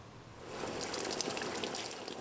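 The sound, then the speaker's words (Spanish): Water from a garden hose pours into a pool with floating leaves, branches and sticks, making a steady hissing, splashing stream that swells after the first half second and stays even, fairly faint. “Estoy echando agua en la piscina. Y esto hace que las hojas, las ramas y los palos se muevan.”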